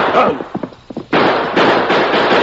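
Gunshot sound effects in an old western radio drama shootout: a few sharp, explosive cracks in quick succession over a dense, noisy background, following a stretch of scattered thumps.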